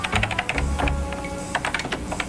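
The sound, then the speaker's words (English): Typing on a computer keyboard: many rapid, irregular key clicks in a steady stream, fairly loud and without voices. “Literally 55 minutes of her just typing.”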